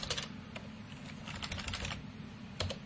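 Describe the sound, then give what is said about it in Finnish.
Keys pressed on a computer keyboard, including the F5 key: a few quiet, sharp clicks spaced irregularly over a steady hiss. “Eli nyt jos mä täällä vähän possauttelen ja sitten painan se F5, niin se palaa silloin tuohon alkutilanteeseen.”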